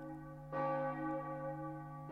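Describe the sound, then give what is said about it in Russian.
A church bell strikes once, and its deep, layered tone rings on loudly and steadily for the rest of the moment, with no voices over it. “Удары колокола становились все тревожнее.”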